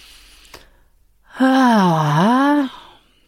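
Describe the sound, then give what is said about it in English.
A deep belly breath released as a long voiced exhale, like a sigh, lasting over a second. Its pitch dips in the middle and rises again, and it is heard alone after a faint click. “step five, which is deep belly breaths, and really exhale on the release.”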